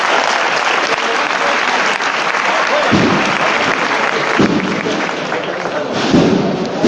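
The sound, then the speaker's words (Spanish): Loud sustained applause from the crowd at a Holy Week procession in Jaén, a dense unbroken roar of clapping that holds at full strength from start to finish. “Ya el paso al completo en la cuesta. Cuando acaba esta interpretación se levantan los aplausos.”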